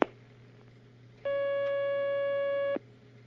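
A steady telephone line tone sounds as a caller is put through: one unbroken electronic note lasting about one and a half seconds, starting and stopping abruptly over a faint low hum.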